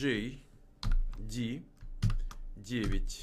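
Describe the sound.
Typing a code in capital letters on a computer keyboard: a run of quick, clicky keystrokes, with a voice sounding over parts of it.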